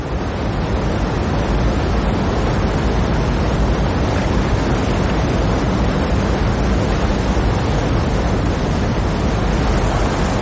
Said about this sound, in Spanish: Trepa por las escarpadas y mojadas rocas. El agua cae con fuerza a su alrededor.